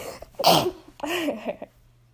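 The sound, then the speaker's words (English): A sudden loud, breathy sneeze bursts out once, followed by a shorter voiced exhale before the sound fades to quiet. “give me 1 second, I think I'm gonna sneeze.”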